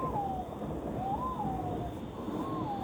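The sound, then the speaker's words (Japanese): A white-bellied green pigeon calls among trees in a hillside park overlooking a bay, giving a few drawn-out, wavering mid-pitched hooting notes, faint over steady wind noise. “木々の間をよく見ると、明るい緑色の羽をした鳥がいます。アオバトです。”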